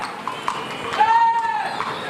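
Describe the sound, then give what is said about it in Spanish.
Hooves of a chestnut horse entering a bullring clop in light, irregular beats beneath a talking voice. “Sale Sebastián Fernández, caballo castaño, pintas granas y blancas.”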